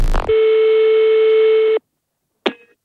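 A telephone tone sounds while a call is being placed: one steady, loud electronic beep held for about a second and a half, then silence and a short click near the end.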